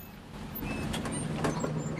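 A van engine rumbles as the dog van pulls up and parks: a loud, steady low drone with a few faint higher rattles over it and no talk.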